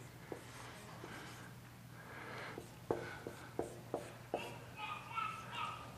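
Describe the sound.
Writing on a board: a series of scratchy strokes with a few sharp taps clustered in the middle, over a low steady hum, fairly faint overall.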